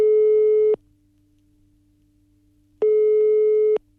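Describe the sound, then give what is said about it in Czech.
Telephone ringback tone while placing a call: two steady, mid-pitched beeps of about one second each, separated by a roughly two-second pause filled with faint low hum, with no voices. “Tak já volám Vaškovi.”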